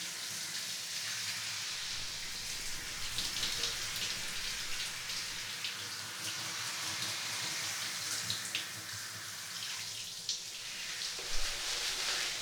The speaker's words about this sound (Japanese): おお、髪、お湯でいっぱい流されてる。